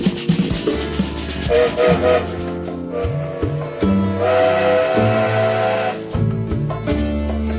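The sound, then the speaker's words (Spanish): A steam train departs amid hissing steam and whistle tones. The sound is loud, dense and continuous, with layered tonal blasts rising and falling over a rumbling low end throughout. “Bueno, se larga el tren.”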